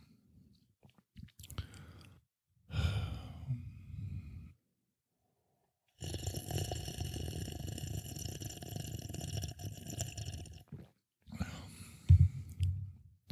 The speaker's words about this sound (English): There's always a bong rip sound effect.